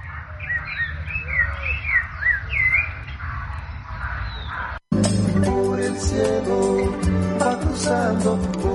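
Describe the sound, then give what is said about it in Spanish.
A thrush (zorzal) sings a series of clear, whistled, warbling phrases for about five seconds, then the sound cuts off abruptly to a denser, louder mix. “Ahí está el zorzalito cantando.”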